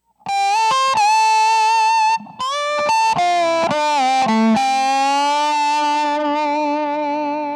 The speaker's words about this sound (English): here's the sound of the resonator box ahead of or in front of a cranked up distortion or overdrive sound.